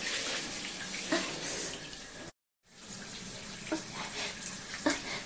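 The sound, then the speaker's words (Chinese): Water gushes from a faucet whose valve will not close, a steady, loud hissing rush that runs almost without change and cuts out for a moment midway before continuing. “是不是因为这个水龙头的阀门关不上了呀？”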